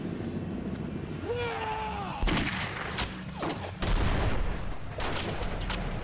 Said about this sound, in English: Oh, he's getting shot!